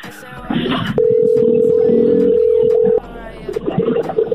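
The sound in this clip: A telephone number being dialed on a call-in line produces one steady electronic tone held for about two seconds. Muffled rustling and voices come before and after it.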